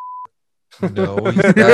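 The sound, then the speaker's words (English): A censor beep, a short steady pure tone lasting about a quarter second, blanks out a spoken name, then after a brief silence a voice starts talking. “we might need to beep that name”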